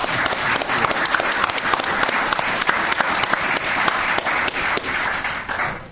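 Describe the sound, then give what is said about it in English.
Loud, sustained applause greets a speaker as he is welcomed to the stage: many hands clap in a thick, even roar with sharp individual claps, fading slightly at the very end. “Please welcome Stewart Bornhoff.”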